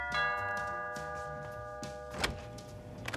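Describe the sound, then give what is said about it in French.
A doorbell chime rings at a house door at Christmastime, with sustained, bright, bell-like tones throughout, followed by a short thump near the end. “Jean-Claude a en horreur le son des cloches de Noël et plus encore celui des sonnettes”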